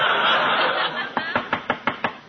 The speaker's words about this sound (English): what are you knocking again for?